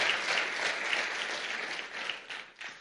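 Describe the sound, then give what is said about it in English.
An audience at a church service applauds to welcome a speaker, a dense, steady patter of many clapping hands that thins and fades toward the end. “So let's put our hands together and welcome Hennie Swart.”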